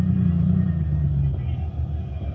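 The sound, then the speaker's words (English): A car engine idles with a steady low rumble while the car pulls into a parking space. The rumble eases a little in volume toward the end. “Now turn off the motor.”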